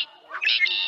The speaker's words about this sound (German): Das hier? Das ist eine Amsel. Die müsstest du aber kennen. Die flitzt hier durch alle Gärten und kann ein ganzes Konzert allein veranstalten.